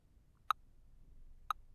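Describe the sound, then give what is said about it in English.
A metronome ticks twice, one second apart: short, clean, faint clicks keeping a slow, steady beat against near silence. “I'm gonna start my metronome. And I want you to focus on my voice. And the ticking in the background.”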